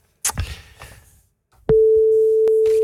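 Telephone ringing out on a call placed from a radio studio: a sharp click, then a steady, continuous mid-pitched ring tone that holds loudly to the end, with another click partway through.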